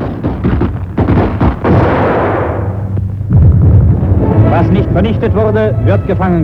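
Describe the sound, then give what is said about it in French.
Artillery shelling of a Bolshevik sortie on the Neva, with heavy booms and a rushing roar of blasts that sound under continuous spoken narration. “La tentative de sortie bolchevique sur la Neva est pilonnée. L'infanterie stoppe la retraite ennemie.”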